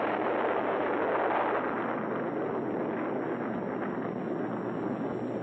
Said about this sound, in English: Little bomb. Big bomb.